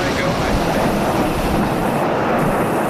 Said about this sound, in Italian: 3, 2, 1, ignition, and liftoff.